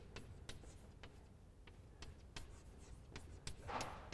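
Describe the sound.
Writing on a board during a lecture on the expectations theory of the term structure: many short, dry scratching strokes and light taps in an irregular rhythm, faint against a low background hum.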